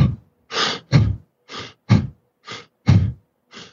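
Fast breathing: about eight sharp, noisy breaths in an even rhythm, full inhales followed by passive, unforced exhales, with bursts alternating between stronger and softer and clear gaps between them.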